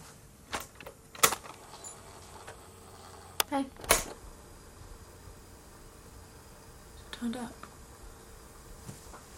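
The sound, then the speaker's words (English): Audio tape loaded into a portable stereo with buttons pressed: a few sharp, faint plastic clicks and clunks, with light rattling between them. “They look uncertain as they load an audio tape and press buttons.”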